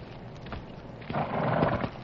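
Hoofbeats of a horse being ridden off: a few clip-clop thuds, then a louder, fuller surge of movement before it eases slightly, with no talking.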